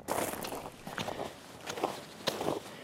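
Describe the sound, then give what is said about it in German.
Footsteps of people setting off on a hike sound as quiet, steady treads in an even walking rhythm, with a series of soft crunching steps and no talk. “Und dann wandern wir los.”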